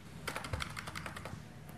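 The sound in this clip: Quiet typing on a computer keyboard to open clinic software for non-communicable disease examinations, many soft, rapid keystrokes in an uneven rhythm, faint and without speech.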